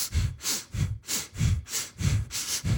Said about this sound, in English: and I was like, double sniff